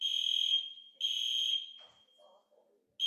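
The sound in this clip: Loud, high-pitched electronic fire alarm set off when a child pressed the red wall button, sounding long steady tones with a pause between them, a second tone and then a third starting at the end, with faint rustling in the gaps.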